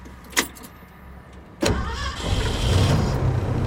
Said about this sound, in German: Ich fahre weiter, nach Osten, ein Stück weit weg vom See.